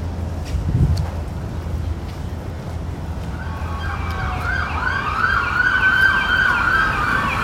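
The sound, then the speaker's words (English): An emergency vehicle siren on a New Orleans street fades in over steady traffic noise about halfway through, its wailing, oscillating tone growing louder toward the end. “Over-unders on emergency vehicles set at 1.5. Here it comes. Here it comes.”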